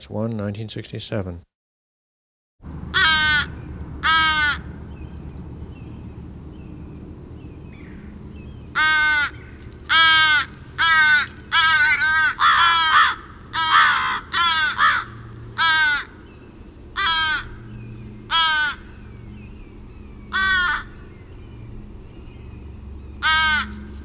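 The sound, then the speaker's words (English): Harsh, nasal caws from a common crow in Everglades National Park, Florida, come in many separate calls and short runs at irregular intervals. A brief voice is heard at the very start. “Common Crow, Corvus brachyrhynchus, Gun Library Cut 15, Everglades National Park, Florida”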